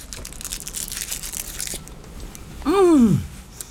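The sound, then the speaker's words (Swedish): Chocolate is unwrapped and bitten, starting with soft crinkling and tearing of the wrapper, then a brief, louder bite near the end. “Jag måste smaka på chokladen först.”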